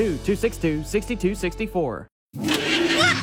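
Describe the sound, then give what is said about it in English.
An old clunker car engine sputters in a rhythmic series of throbbing pulses, drops out for a moment, then comes back in a loud, harsh roar. “What is that? It sounds like a monster. That's just my car. It's an old clunker.”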